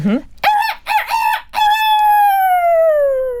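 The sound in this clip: A person's voice imitates a rooster crowing. A short low grunt leads into two clipped, bright syllables, then a long drawn-out final note that slowly falls in pitch, loud and alone.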